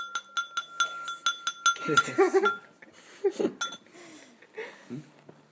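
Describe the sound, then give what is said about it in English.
A bowl clinking while someone eats: a quick run of bright, ringing clinks in a steady rhythm, then a few scattered clinks as a voice speaks. “I realize my bowl is just making so much noise right now.”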